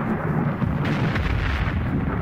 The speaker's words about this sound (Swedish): Då kom där en åskknall. Skrällde bergväggarna.